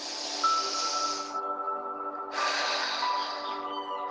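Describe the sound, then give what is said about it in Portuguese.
A deep breath during a guided meditation, two long airy rushes of air separated by a short pause, over a sustained musical drone. “Isso, respira profundamente.”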